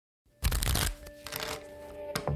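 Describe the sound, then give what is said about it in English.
A deck of playing cards, printed with unsolved cases, is shuffled: a brisk papery riffle burst, then a softer fluttering rustle and a small final snap. “This is not your ordinary deck of playing cards. These cards contain 52 unsolved cases, and with every hand that's played, the stakes are unusually high.”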